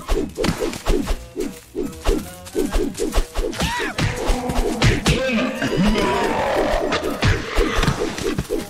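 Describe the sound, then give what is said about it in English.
Punches landing in the Earthworm Jim video game as the hero strikes a cheetah enemy: a quick, rhythmic run of thuds and smacks set against busy game audio, growing denser and more cluttered toward the end. “I think I punched another cheetah. Not sure what I just punched there.”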